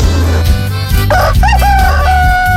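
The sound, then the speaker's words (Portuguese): A rooster on a small farm crows loudly in one drawn-out call that rises and then holds, over a continuous loud background. “escutando a Rádio Menina acordada, escutando o Galo cantar”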